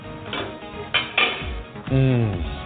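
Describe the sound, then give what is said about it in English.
A metal lid lifted off a pot of rice steamed with star anise and cardamom pods, giving a few short clanks and clatters, followed by a steadier, fuller tone near the end. “Allow it to steam as it's cooking. Do not lift that lid up. Lid off.”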